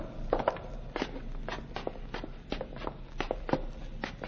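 Footsteps of two men heading upstairs through an old house in a radio drama: many steady, fairly faint thuds in a regular walking rhythm.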